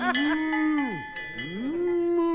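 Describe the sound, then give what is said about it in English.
A dairy cow moos inside a living room, a single loud, drawn-out bellow. Its low pitch sags sharply in the middle, then climbs back and holds steady to the end. “Get that cow out of my living room.”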